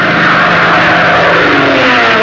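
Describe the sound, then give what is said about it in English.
Car engine droning steadily as a car drives to a secret airfield, a loud, even rumble with no break and no voices. “Hop and Tank drove to the secret airfield of the infamous Nazi Death's Head Squadron”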